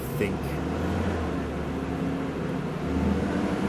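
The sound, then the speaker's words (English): Garbage truck driving past: a low, steady engine rumble with road noise throughout, and faint voices present alongside it. “That garbage truck. That truck's gone.”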